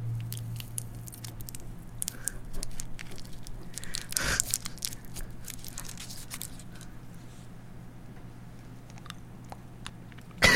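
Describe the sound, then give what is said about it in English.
Someone rummages through a jacket, making soft rustling, crinkling and many small crackles and taps over a low steady hum. A louder scraping burst comes near the middle and another at the very end. “Digging through his jacket right now. It's like ASMR.”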